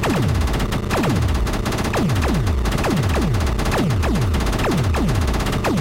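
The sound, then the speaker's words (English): Dual front-mounted machine guns on a biplane in a video game fire in a continuous, loud rattling stream. Short falling whines from ricochets on hits recur again and again over the gunfire. “Players engage enemy aircraft by pressing on the A button to fire their dual front-mounted machine guns. When a player hits an enemy biplane with the machine gun fire, a ricochet sound occurs.”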